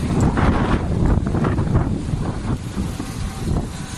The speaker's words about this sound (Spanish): esto que escuchas es Machichaco en Vizcaya. Viento, rachas fortísimas.